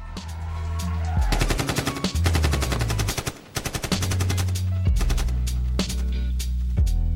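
AK rifle gunfire sound effect in rapid automatic bursts, loud repeated sharp shots set over deep, steady bass music tones, with short gaps between bursts.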